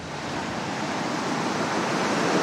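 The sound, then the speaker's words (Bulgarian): Stormy sea waves with a heavy swell break on Harmani beach in a continuous, loud roar of surf, with no clear breaks and no voices. “Първо искам да ви покажа колко е бурно морето.”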